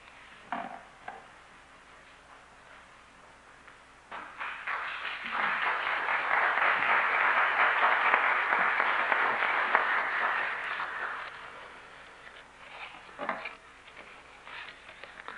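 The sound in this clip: Audience applause welcomes a guest speaker at a church mission evening, swelling from scattered claps into a dense, sustained roar before thinning back to a few claps.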